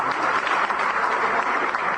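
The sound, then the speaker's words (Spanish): Audience applause for a speaker at a community discussion, a dense, even wash of clapping that holds steady for about two seconds with no single voice standing out. “Lo aplaudieron ahí a Diego con esta cuestión del no a la exclusión, ¿no?”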